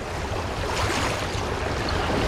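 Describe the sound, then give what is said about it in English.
Water gushes up out of a vent aboard a ship, making a steady, full-bodied rush that holds without a break from start to finish. “Maggie looks over her shoulder and sees the water is now pouring up out of the vent they climbed out of.”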